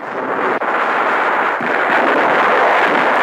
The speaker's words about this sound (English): Navy shells drop in the background.